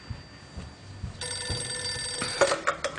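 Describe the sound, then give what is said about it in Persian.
A telephone rings with a steady, bright electronic tone that turns into a few sharper pulsed bursts near the end, with no talk. “حالا ایشون تماس گرفتن ببینن چه خبر.”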